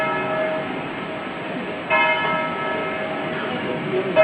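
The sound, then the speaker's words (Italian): A church bell tolls slowly to mark the Chernobyl disaster anniversary. A few deep metallic strikes each ring out with a long, humming decay that overlaps the next stroke. “Venticinque rintocchi di campana a scandire gli anni, cupi e drammatici trascorsi dalla tragedia di Chernobyl, Ucraina”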